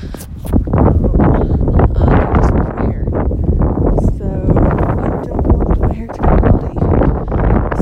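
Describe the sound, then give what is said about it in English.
Strong outdoor wind buffets the microphone with loud, low, rumbling gusts, heard under steady talk throughout. “I'm really aware that there's a horrible wind today.”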